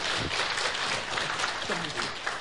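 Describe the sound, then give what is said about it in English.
A church audience claps to welcome a visiting pastor before he preaches: dense, continuous applause of many hands, fairly loud and even from start to finish. “Let's give Pastor Victor a hand and we welcome him.”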